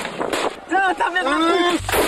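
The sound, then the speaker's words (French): A GM2R grenade fired by gendarmes toward protesters, heard as broad, dull bursts of noise at the start and again near the end, with a man speaking in between. “Allez les gars, tir de GM2R, l'objectif des manifestants.”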